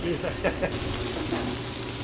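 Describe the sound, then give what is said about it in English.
A steak searing in a pan as its fat renders gives a steady, bright sizzling hiss beneath a person talking. “So sear it on all the sides so the fat is not chewy, so you actually render the fat so you can actually eat it.”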